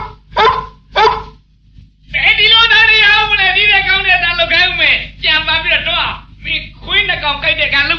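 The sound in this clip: A person imitates a big dog barking with their voice: a long, loud, continuous run of rough, strained barks and growls with brief breaks, after a couple of short spoken bursts.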